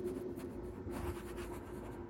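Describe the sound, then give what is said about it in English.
Faint, steady scratching of handwriting on paper, written in darkness during a power outage, continuous and soft over a low background hum. “It seems like this writing's the only thing keeping me sane, so I'm going to keep trying to do it.”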